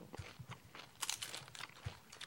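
Crisp, crunchy chewing of salty pickled nozawana stems, heard as a quick, uneven series of many short bites and crunches, loud and close with no talk over them.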